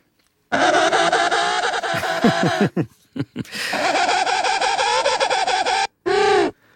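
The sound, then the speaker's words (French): A penguin call with a dissonant, guitar-like tone: loud, harsh braying made of long, buzzy harmonic calls broken by a run of short, rhythmic gasping pulses, ending with a brief final burst. “Et ça, c'est utilisé par les manchots. Les manchots jouent de la guitare, en quelque sorte, en tout cas, font la même dissonance que vous venez de faire avec votre guitare. On écoute le manchot.”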